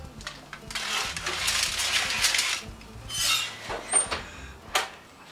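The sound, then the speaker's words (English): Metallic clatter and rattling as a cheese-topped dish goes into an oven preheated to 350 degrees, a quiet run of scraping and clinking followed by a few sharper knocks and taps. “I'm ready to place it in the oven. 350 degrees preheated.”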